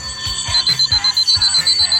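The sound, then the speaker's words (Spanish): An alarm clock rings with a rapid, even run of loud, high electronic beeps that repeat without pause. “¿Cómo ha ido ese servicio de despertador? ¡Hombre! ¿He conseguido despertar a alguien?”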